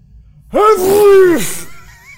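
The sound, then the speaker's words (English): A voice imitates a loud, wet sneeze as a single drawn-out burst lasting about a second. It opens abruptly, holds a strained voiced tone, then tails off into quiet. “just the loudest, wettest sneeze”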